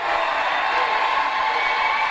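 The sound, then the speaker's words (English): Raucous crowd cheering in the Texas State House at the close of a long, dramatic legislative session: a dense, continuous roar of many voices at an even, loud level. “The raucous cheers from the Texas State House capped a long, dramatic session that had started almost 13 hours earlier.”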